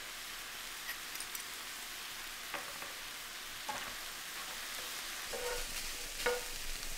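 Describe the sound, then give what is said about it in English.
Minced garlic and thinly sliced red chilli fry and sizzle in a pan while being stirred, a steady hissing crackle broken by a few soft scraping stirs, with no talk. “Now add 2 minced cloves of garlic and 1 red chilli that's been thinly sliced. Stir together and fry for another 2 minutes.”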